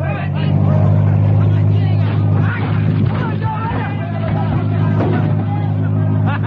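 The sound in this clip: Car engine driven hard on the gas to burst through a roadblock, a steady, loud low drone that holds throughout beneath talking voices.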